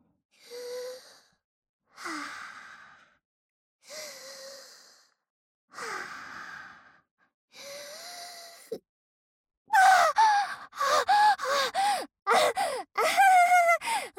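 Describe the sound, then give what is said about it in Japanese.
Deep breathing to calm down: five slow, voiced sighing breaths, evenly spaced and each fading out, followed by a quicker run of many short, breathy voiced gasps. “はい、落ち着きます。はい、深呼吸します。”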